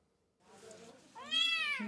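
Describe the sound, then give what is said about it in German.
A small kitten about eight weeks old, in poor condition at an animal shelter, meows: a softer, thin cry followed by a louder, clear, high-pitched meow. “Um die 8 Wochen alt ist dieses kleine Kätzchen und in keinem guten Zustand.”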